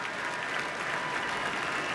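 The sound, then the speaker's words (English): Applause from a concert audience giving a standing ovation to the Boston Symphony Orchestra and its soloists, including Yo-Yo Ma on cello. The clapping is dense, even and fairly faint, and it continues without a break and without voices. “Our artists bowing to the audience now, who are offering a standing ovation.”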